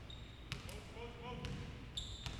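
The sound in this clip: A basketball is dribbled during a men's college game between Southern Union and Coastal Alabama South, a few sharp bounces spaced unevenly, with faint voices in the background.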